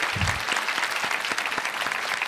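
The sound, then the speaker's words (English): Audience applause after a conference talk, a steady dense patter of many hands clapping at even loudness throughout the short clip. “Let's give her another hand of round of applause.”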